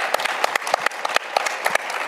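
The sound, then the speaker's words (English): Audience applause at a panel discussion on technology, education and the future of work: a dense, fairly faint wash of many hands clapping steadily with no voices. “let's give her a round of applause”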